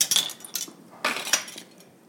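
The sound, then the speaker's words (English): Sharp taps and light clinks while two eggs are separated for rice pudding, a few short, bright knocks spaced unevenly with quiet gaps between. “But I'm going to thicken it up with a little bit of egg. So what I'm going to do is I'm going to separate 2 eggs.”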